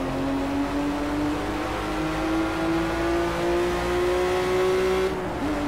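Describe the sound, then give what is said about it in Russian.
A race car engine drones in a racing video game as the car skids out of control, a steady buzzing tone climbing gradually in pitch, then dipping abruptly near the end before picking up again. “То есть машина ушла в занос. И я ее не могу контролировать, к сожалению.”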